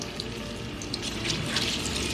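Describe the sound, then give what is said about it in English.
Fritters frying in batches in hot oil in a pan give a steady, soft sizzling hiss with scattered tiny crackling pops. “My oil is nice and hot, and you want to cook these in batches. You don't want to overcrowd the pan.”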